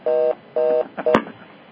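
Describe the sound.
A telephone line after the caller has hung up: two steady electronic beeps, then a shorter third beep cut off by a sharp click.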